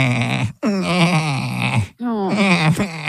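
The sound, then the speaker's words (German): Baby goats bleating plaintively in a stable, three long wavering, quavering cries following one another closely and loudly. “warum dieses klägliche Gemecker? Ja, unsere Babyziegen, es war soweit.”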